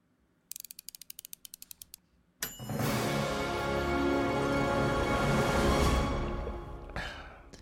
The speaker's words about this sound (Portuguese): Vamos lá, solta a vinheta